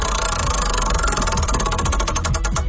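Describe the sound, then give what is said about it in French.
Rapid, even ticking of a prize wheel being spun, a dense and loud stream of clicks lasting throughout with no voices. “On va tourner la roue pour toi.”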